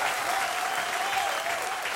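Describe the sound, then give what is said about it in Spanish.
A cantina audience at a live regional Mexican music show in Nuevo León, Mexico, gives steady, dense applause that holds at an even loudness for two seconds, with no voice standing out. “Un aplauso grande para don Ramiro Cavazos.”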